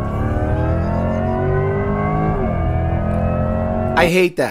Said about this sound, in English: it makes a whooshing weird sound in acceleration, and I hate it.